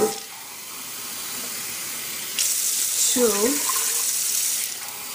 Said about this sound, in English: we're gonna fill our saucepan up with 3 mugs of hot water.